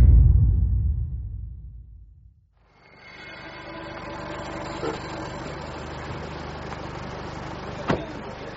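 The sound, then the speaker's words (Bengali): A bus pulls up and stops: a loud, low engine rumble fades away to near silence, then a steady broad background hiss continues with a couple of faint clicks. “বাস থামতেই সবাই হুড়মুড়িয়ে নামতে লাগলো।”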